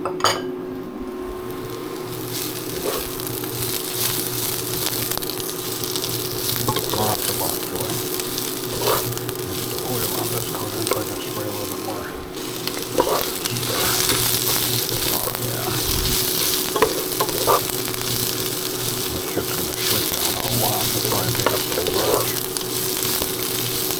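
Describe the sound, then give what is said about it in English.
Bok choy fries in a hot pan with a steady, loud sizzle throughout, broken by scattered clinks and scrapes of utensils against the pan. “Put the bok choy in. This shit's gonna have to cook for a while.”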